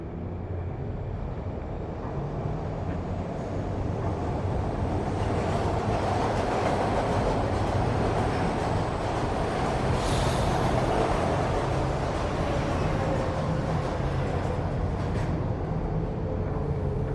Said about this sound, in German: Die Türen schließen sich. Der Zug fährt an.